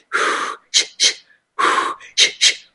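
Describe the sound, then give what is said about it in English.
Short, forceful breaths in a breathing technique demonstration: six audible breaths in two groups, each group a longer breath followed by two quick ones, loud and clear with no talk. “The third is the shorter breaths.”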